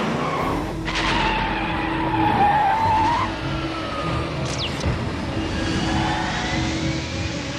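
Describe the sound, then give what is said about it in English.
A speeding car, over the speed limit, skids as it reverses course: tires squeal in a sustained, wavering whine over a steady engine roar and road rumble, and the squeal trails off while the engine noise continues. “Course reversed. Now heading north toward Gotham Central. Caution, vehicle is over speed limit.”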